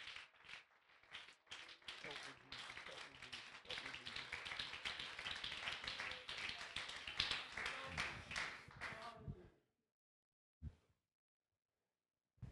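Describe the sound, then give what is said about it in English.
A church audience claps its hands in worship in rapid, dense, even clapping for about nine seconds. The clapping stops abruptly, followed by a couple of isolated single claps. “Oh, would you clap your hands and worship God for a moment?”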